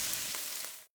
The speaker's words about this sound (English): Oh, hear that? That's the Spam brand singing you a love song. Spam, sizzle, pork, and mmm.